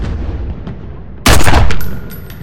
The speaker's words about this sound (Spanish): Martín lo apunta con la pistola. ¿Pero qué hostias anda? Le dispara.